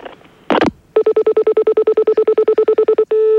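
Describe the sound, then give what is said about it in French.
A telephone is hung up with a short clatter, then a new call is dialled as a rapid, even run of identical electronic beeps, ending in a steady unbroken tone. “Je raccroche, moi? Nous raccrochons tout de suite, monsieur, en attendant le prochain appel.”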